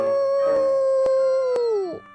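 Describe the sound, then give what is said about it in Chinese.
A lone wolf howls in one long, steady, clear tone that slides downward in pitch at the end before stopping abruptly. “他听到外面有狼嚎的声音。”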